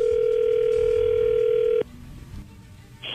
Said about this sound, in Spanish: ahí está, ya entró la llamada